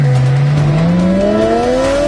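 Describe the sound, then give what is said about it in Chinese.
A high-horsepower car engine roars as it accelerates: a loud, steady growl whose pitch climbs smoothly and continuously throughout, with no voices. “一辆完美的车应该发出什么样动听的声音？极速马力的声浪轰鸣，”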